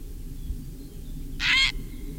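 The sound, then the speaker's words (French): A single harsh, hoarse call of a grey heron, a bird of ponds and meadows, lasting about a third of a second and standing out clearly over faint background noise. “le héron cendré, le numéro 10, c'est un oiseau qui se porte pas trop mal partout où il y a des étangs”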